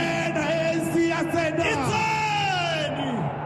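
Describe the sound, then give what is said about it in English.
Thousands of ANC supporters cheer at an election rally in a Soweto stadium, a dense, sustained roar of yells, bellows and rising whoops that stays loud from start to finish. “On Saturday, it held an election rally at a Soweto stadium. Thousands of supporters cheered.”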